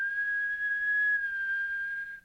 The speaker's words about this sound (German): Pfeifen.